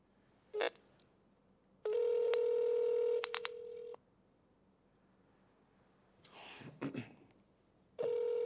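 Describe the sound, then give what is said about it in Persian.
A telephone ringback tone sounds while a call is being placed: one long, steady, buzzing tone, a pause, then another tone starting at the end, with a brief rustle in between. “دو تا زنگ میخوره.”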